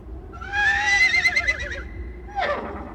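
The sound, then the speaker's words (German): Horses gather at dawn in mist-covered riverside meadows before an attack, and one whinnies: a long, wavering high call, then a shorter call that falls in pitch, over a faint low rumble. “Durch die Nebel der Morgendämmerung hörte man das Schnauben und Stampfen ihrer Pferde, noch bevor das Auge sie erspähte.”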